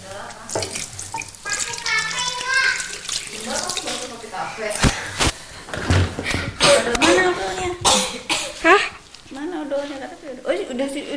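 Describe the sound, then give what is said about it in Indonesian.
Running tap water as hands are washed at a sink. The flow is steady and continuous, with voices talking over it throughout. “Dalamnya aku cuci tangan dulu. Ya, cuci tangan dulu.”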